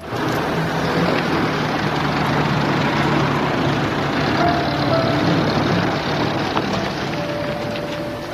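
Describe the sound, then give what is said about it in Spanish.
Steady engine and road noise of a car driving into a village after a long journey, a continuous, even rumble with broad hiss that neither rises nor breaks, with no voices. “Cuando el coche entró en el pueblo después del largo viaje”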